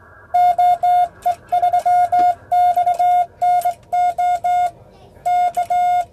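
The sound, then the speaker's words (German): Morse code telegraphy sends a CQ general call as a steady, high, pure beeping tone keyed in short and long pulses. Many dots and dashes fall in a regular rhythm, grouped into bursts with short pauses between them. “Das war jetzt begonnen mit dem allgemeinen Anruf CQ, CQ, CQ”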